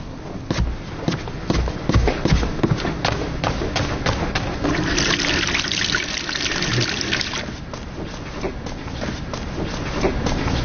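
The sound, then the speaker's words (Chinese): Water runs and trickles from a tap as someone washes their hands before a family meal, a steady, moderate splashing with many soft thumps and knocks mixed in. “你赶紧去洗手，洗完手吃饭了”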